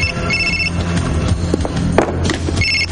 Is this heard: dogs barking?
no

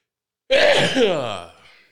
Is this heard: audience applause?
no

